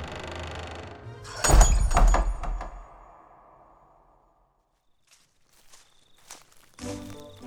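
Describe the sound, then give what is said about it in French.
Footsteps of someone walking out into the dark night with a shoulder bag, a visitor alongside: a loud cluster of thuds early on fades to quiet, then a few sparse, lighter steps and knocks follow. “en portant le tout dans une besace, que Berlus sortit dans la nuit noire, accompagné de leurs visiteurs”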